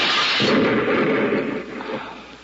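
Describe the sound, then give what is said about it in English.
A hand grenade explodes with a deep, heavy boom. A broad, loud rumble follows and slowly fades over the next couple of seconds, with no voices. “Just one more string inside to pull... Hey, it's a firing pin of a grenade. Give me that. Look out!”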